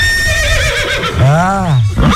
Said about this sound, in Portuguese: O Benivaldo tá correndo atrás do cavalo